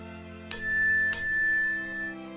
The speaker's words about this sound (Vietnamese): Tôi chỉ vừa mới đọc tới đây thì bỗng dưng điện thoại của mình có âm báo.